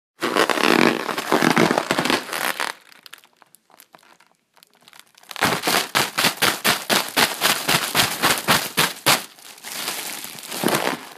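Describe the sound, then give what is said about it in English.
Crinkling and crackling of a deflated Mylar balloon being handled: loud rustling bursts, then a quieter stretch, then a fast run of sharp crackles and snaps, and more crumpling at the end. “That was the sound of me playing with a deflated Mylar balloon.”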